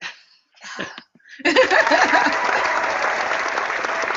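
A studio audience on a quiz game show applauds. A few scattered small sounds come first, then dense, steady applause begins and holds loud to the end.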